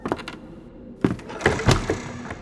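A wooden shrine door is opened with a few hollow thunks and knocking rattles, the strongest impacts clustered in the second half, with short quieter scrapes in between.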